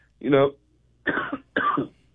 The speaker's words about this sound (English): Sorry, I got a little cough.